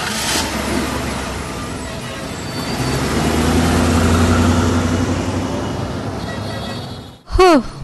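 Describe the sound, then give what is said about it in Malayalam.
A police jeep pulls away from a bus stand. Its low engine rumble swells for a few seconds, then gradually fades, ending in a brief louder burst. “ദാ police jeep പോയി.”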